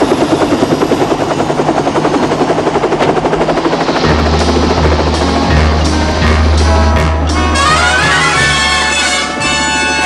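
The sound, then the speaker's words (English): A helicopter lifts off from a dockside road and flies over New York City, its loud, rapid rotor chop and turbine whine sounding steadily throughout, with a deeper rumble swelling in partway through. “The helicopter is quickly airborne and flies across the backdrop of New York City's skyscraper buildings.”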